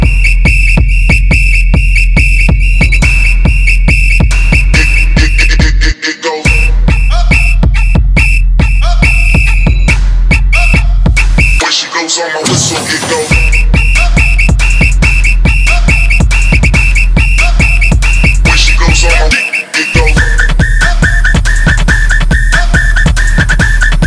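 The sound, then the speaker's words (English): A shrill, steady whistle tone repeats through a musical track over a heavy pulsing beat, dropping out briefly at three short breaks. “when she goes on my whistle”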